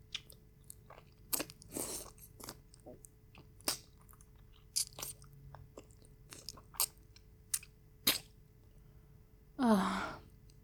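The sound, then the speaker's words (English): Wet biting and chewing of a juicy, very sweet nectarine: many short moist smacks and crunchy clicks scattered irregularly, with a breathy sigh near the end. “This is the sweetest nectarine I have ever tasted.”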